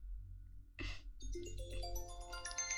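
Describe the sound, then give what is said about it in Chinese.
A phone rings with an incoming call. After a brief noisy burst, a quiet melodic sequence of electronic tones plays, stepping through several pitches. “又打电话来了，不理他，挂掉。”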